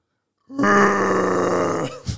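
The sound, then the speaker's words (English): A person imitating a bear with a deep, rough growling roar that holds for over a second, then cuts off and is followed by a short breathy huff. “Hey, you're a good noise maker. Make a noise, bear noise for us.”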